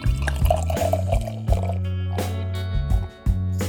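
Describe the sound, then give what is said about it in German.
Ale pours into a sampling glass in a steady gurgling stream with drip-like bursts, briefly dropping near the end, with no talk. “So, da fließt das Bier jetzt rein. Das Geräusch kennen viele von euch.”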